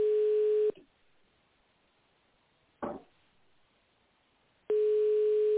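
Telephone ringback tone plays while a call is transferred to an operator: two steady, humming tone bursts separated by a long quiet gap, with a brief click in the middle of the pause.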